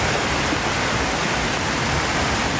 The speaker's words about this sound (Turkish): Sağanakla birlikte Dümbüllü Deresi'nin debisi yükseldi. Taşan dere nedeniyle bazı evler ve ahırlar su altında kaldı.